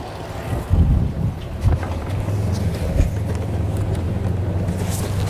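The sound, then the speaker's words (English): Wind blowing during a fishing trip: a continuous low rumbling roar of gusts buffeting the microphone, with a few heavier thumps early on, then an even, steady rush. “This goofy wind.”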